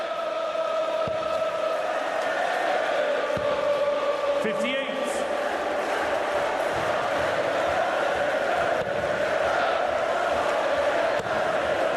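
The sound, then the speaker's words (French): A darts crowd in Blackpool sings together at a match between two English players, in a pub-like sporting atmosphere. The chanting forms a loud, dense, continuous chorus that holds steady for the full twelve seconds, with scattered shouts rising above it. “On est vraiment dans cette ambiance mi-sport, mi-pub. Le public qui chante, deux Anglais sur la scène qui font un sacré match.”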